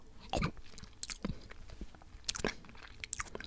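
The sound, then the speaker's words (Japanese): Crunchy bites and chewing of a moon-viewing sandwich, with several crisp bites and softer mastication in between, quiet and alone with no talking. “お月見サンドもそろそろ食べ納めだな。いただきますと。”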